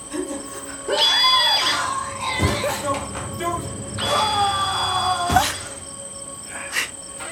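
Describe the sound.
Shrill screaming in a video game comes in two wavering bursts of high, strained cries over a steady, thin insect-like drone that runs throughout.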